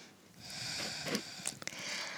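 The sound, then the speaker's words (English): A long breath let all the way out during a guided yoga session, a soft, airy exhale that swells and holds for about two seconds, faint and alone. “Breathe in. Good. Breathe all the way out.”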